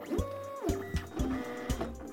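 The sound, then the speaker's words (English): Computer printer printing: a mechanical whir with stepped motor tones, punctuated by several rhythmic clunks as the feed advances, moderately quiet and without voices. “like when I make it so that his computer printer no longer prints paper, but only cheese”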